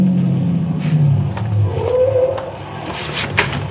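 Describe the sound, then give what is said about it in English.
A car engine rumbles loudly and steadily as the vehicle drives up to a street corner and comes to a stop, with a few faint clicks above the low drone. “I'm at the designated corner long before the agent drives up and stops in front of me.”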